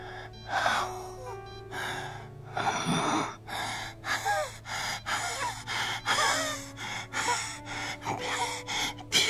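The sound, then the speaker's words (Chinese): An old man in a hospital ward takes short, uneven breaths. Many quick gasping inhales and exhales rise and fall in an irregular rhythm, clear and fairly quiet, with no talking. “病房里一时只听见老爷子短促起伏的呼吸声”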